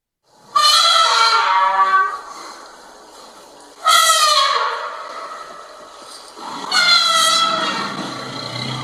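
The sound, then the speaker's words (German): Three loud, brassy trumpet calls from an elephant herd. Each is a harmonic-rich blast that fades, and they are separated by pauses of about three seconds. “Da sagt gerade das Alpha-Weibchen zu der Herde, dass endlich die Computer eine Elefantentrötenerkennung bräuchten”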